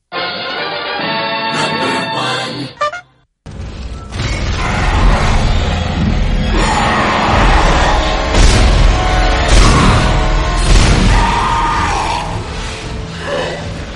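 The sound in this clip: Blasts from the video game Dead Space, in which limbs are being cut off. A brief tonal passage stops abruptly, then a long stretch of loud, dense crashing impacts and booming hits follows in quick succession.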